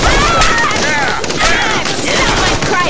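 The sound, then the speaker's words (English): Rapid, loud gunfire of shock rounds: a continuous fusillade of shots that does not let up for the whole stretch. “Nah, these are shock rounds, so it should just knock them out.”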